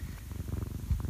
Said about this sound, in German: Ich habe übrigens, wenn es hier schnurrt, das ist der Kater.